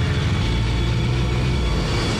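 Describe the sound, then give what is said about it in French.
Loud, steady engine roar of motorcycles at full throttle, speeding past police vehicles through the lanes of the Bois de Boulogne, a continuous dense low rumble with no breaks or voices. “Les motards lancés à pleine vitesse dépassent les véhicules de la BAC.”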